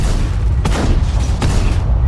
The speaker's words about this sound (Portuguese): O piloto girou o volante e o veículo andou de lado. Ao mesmo tempo, atirou diversas vezes no inimigo.